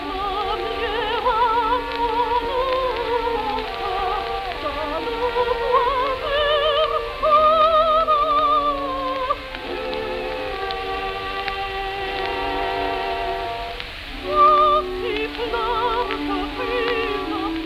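A Swedish soprano sings an aria from Ethel Smyth's opera The Wreckers in a 1926 recording. Her high, sustained notes carry a wide vibrato, and the narrow, muffled old-record sound is overlaid with constant crackling surface noise.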